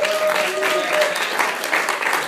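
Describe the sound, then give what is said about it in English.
Audience applause for a staff member at a live presentation: a dense, steady patter of many hands clapping at an even level throughout. “Give Chris a round of applause.”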